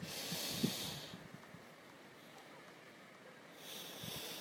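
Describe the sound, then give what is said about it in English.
A hard breath drawn in: a forceful, airy, unvoiced rush, then a quiet gap and a second breathy surge near the end, with no talk. “I breathe in hard.”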